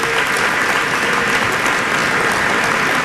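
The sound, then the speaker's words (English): Steady, dense applause from an audience at a county court pro bono event, loud and continuous throughout without a break. “Can we hear for Cleveland, for Cuyahoga County?”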